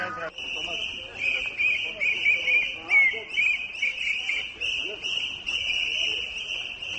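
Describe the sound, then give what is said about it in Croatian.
Protest whistles are blown by a crowd, forming a shrill, near-continuous high whistling that warbles and overlaps, with murmuring crowd noise and voices underneath. “Ove mi pištaljke liče na srbijanske, prije 5. oktobra. Ovo su srpske pištaljke.”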